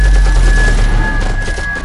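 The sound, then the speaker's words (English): Battle noise of gunfire and exploding shells forms a loud, continuous, dense roar with rapid crackling bursts across the whole stretch, without a break. “Bullets cracking, bombs landing, artillery shells exploding, people screaming. It's just a cacophony that's almost deafening.”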